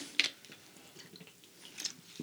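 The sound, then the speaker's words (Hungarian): Faint mouth sounds as someone takes a sip of a drink: a couple of soft, wet clicks and swallowing noises over near silence. “Tehát, hogy iszok egy kortyot.”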